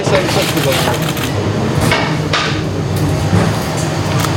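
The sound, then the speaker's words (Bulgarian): A large knife finely chops a mix of lamb and veal for kebab, producing a loud, dense, continuous stream of rapid heavy chopping thuds. “Месото се накълцва много ситно с голям нож. Използваме смес от овче и телешко месо.”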